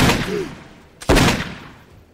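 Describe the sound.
Gunfire erupts in a tense horror drama scene: a loud, noisy blast trails away, then a second sharp report cracks out about a second later and decays slowly.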